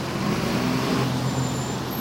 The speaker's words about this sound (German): Hey Leute, der Bus kommt!